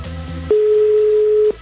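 A single steady telephone ringing tone sounds on a call being placed to Cuautitlán. It is one flat, mid-pitched beep lasting about a second, with faint low background sound before it.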